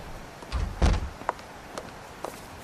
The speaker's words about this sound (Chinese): 给我吧，把门关上。